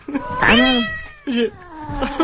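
A cat meows several times, loud and tonal. The first meow is the longest and most drawn out, followed by a shorter call and a fainter one at the end.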